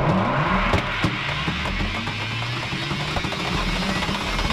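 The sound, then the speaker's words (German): A hyperloop capsule accelerating gives a loud, continuous mechanical roar with a whining tone that climbs in pitch early on and then holds steady, with no voices. “So hört sich der Hyperloop an. Vielleicht das Transportmittel von morgen, vielleicht einfach eine hirnrissige Idee, die sich nie durchsetzen wird.”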